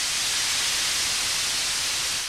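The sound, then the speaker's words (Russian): Air hisses out of an inflated balloon through an opened valve and hose, a loud, even, continuous rush of noise that holds steady for the whole clip without voices. “Воздух с шипением рванулся из шара.”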